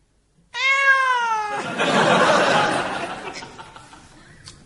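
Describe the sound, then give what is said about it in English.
A tabby cat gives one drawn-out meow whose pitch slides slightly downward, followed by a longer wash of breathy noise that gradually fades. “That's just a cat. A normal tabby.”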